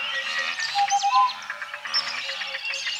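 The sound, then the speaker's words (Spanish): Birds chirping, clicking, whistling and trilling. Many overlapping high chirps and short whistles sound in a busy, continuous chorus, with a few louder bursts standing out. “Tenemos a los pájaros que producen gorjeos, chasquidos, silbidos y trinos.”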